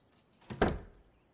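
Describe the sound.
A cupboard opened and checked among hay bales and rafters, with one faint, soft low thunk and a short trailing rattle, otherwise quiet.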